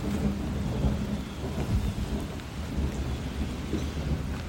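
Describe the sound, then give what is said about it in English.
Rain falls on the metal roof of a covered bridge built in the 1920s as a storm moves in. It makes a steady, dense hiss over a continuous low rumble, with no breaks. “It's got a metal roof, and it's starting to rain a little bit.”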